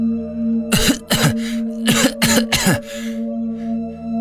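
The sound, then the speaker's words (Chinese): A voice performs painful, harsh coughing for a character who inhaled poison gas and clutches his chest: a quick series of about five rough, throaty coughs, loud, followed by a faint trailing breath. “江瑶捂着胸口痛苦地咳嗽着”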